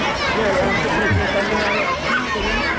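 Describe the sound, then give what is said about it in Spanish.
A murmur of children's voices as Queen Letizia shakes hands with pupils at her old public school, La Gesta in Oviedo. The soft, steady babble of many overlapping voices continues at an even level throughout. “Este murmullo que estábamos escuchando era el momento en el que daba la mano a algunos niños que han querido regalarle un libro, pequeño azul, pequeño rojo, elaborado, ilustrado por ellos mismos.”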